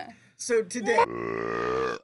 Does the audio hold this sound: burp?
yes